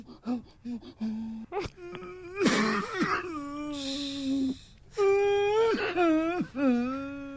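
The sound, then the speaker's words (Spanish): A person cries and whimpers, with drawn-out, wavering wails broken by sharp gasping breaths. The voice rises and falls through several long, loud sobbing cries. “Ya no llores. No te pongas así.”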